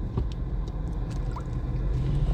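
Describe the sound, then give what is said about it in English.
Interior road noise from a car being driven behind a tractor trailer: a steady low rumble with faint light clicks and rattles over it. “I've got two headsets in four cars, and the headsets are not in the car I'm driving. Good grief, I'm stuck behind a tractor trailer.”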